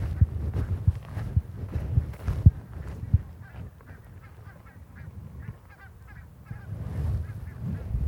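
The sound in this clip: Geese honking in flight during migration, a pair separated from the flock calling to rejoin the others; many honks in an irregular series over a steady low rumble.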